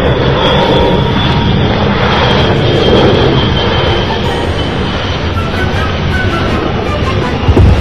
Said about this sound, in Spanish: ¡Es Santa Claus! ¡Está aterrizando! ¡Mira, güey! ¡El trineo tiene lucecitas, güey!